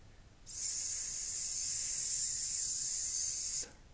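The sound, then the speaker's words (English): A human voice hisses the letter S by blowing air, a steady, airy high hiss held evenly for about three seconds, fairly soft, with no other sound. “by blowing that air to intone the letter S,”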